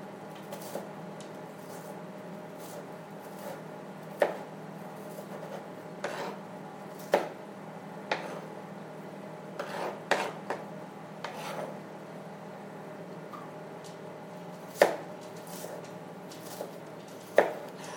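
Onions are chopped with a knife, giving sparse, faint taps and scraping strokes over a low steady background. A few sharper cuts stand out at irregular intervals.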